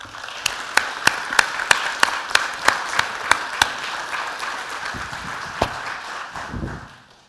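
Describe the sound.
Audience applause welcomes a speaker to the stage, with broad clapping noise and a steady run of sharp, evenly spaced claps that stand out and then thin toward the end.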